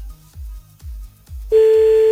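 A telephone call is placed: a few low, rhythmic thumps give way to a steady, loud ringing-line tone that starts partway through and holds to the end.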